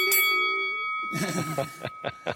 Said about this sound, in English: And that's when the bell goes.